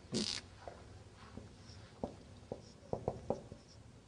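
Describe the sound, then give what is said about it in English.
Faint pen strokes as something is written down during a lesson: a few soft, irregular scratches and taps against a quiet background. “La, let me write it down.”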